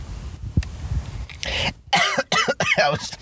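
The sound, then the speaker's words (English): Coughing after inhaling spit: a few harsh, bursty coughs come in quick succession, loud and sputtering, after a quieter stretch of breathing and throat noise. “I inhaled a bunch of spit.”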